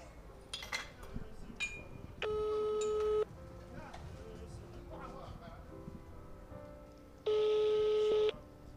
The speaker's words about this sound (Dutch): En ik ga ze bellen.